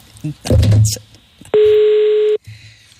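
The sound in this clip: A telephone ringing tone sounds while a guest is being called: one steady, mid-pitched beep held for almost a second, following a short burst of noise.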